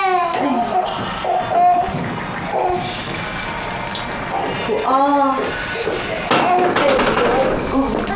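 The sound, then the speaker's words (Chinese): A baby cries in repeated wailing bursts with strong harmonic tones, heard under ongoing adult talk throughout. “他怎么老哭啊？ 你别说他，你小时候也是这么哭大的。”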